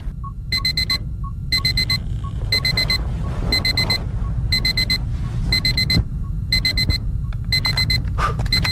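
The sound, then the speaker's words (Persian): An alarm clock rings in repeated bright beeping bursts, about one each second, eight bursts in all, over a steady low rumble of background noise. “ساعت که زنگ زد بیدار شدم”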